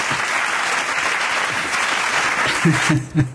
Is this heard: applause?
yes

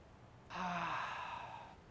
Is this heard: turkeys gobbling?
no

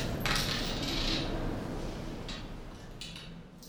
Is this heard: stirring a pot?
yes

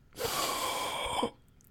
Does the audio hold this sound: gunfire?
no

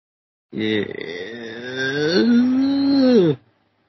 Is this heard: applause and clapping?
no

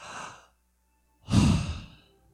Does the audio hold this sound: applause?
no

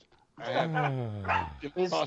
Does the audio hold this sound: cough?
no

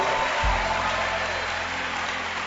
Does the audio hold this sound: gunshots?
no

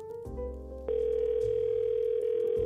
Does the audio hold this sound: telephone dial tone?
yes

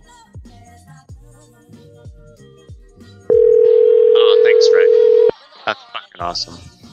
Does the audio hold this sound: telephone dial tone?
yes

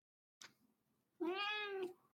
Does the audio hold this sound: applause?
no

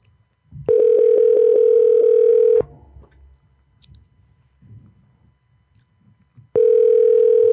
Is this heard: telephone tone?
yes

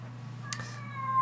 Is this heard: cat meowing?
yes

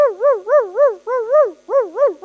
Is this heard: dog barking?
yes

